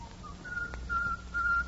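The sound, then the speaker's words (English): A man whistles a tune as a Marine: a few thin, high, sustained notes with gaps between phrases, fairly faint over a low background rumble. “somehow he managed to whistle his one tune as if to remind the others that no matter what, he was a good Marine.”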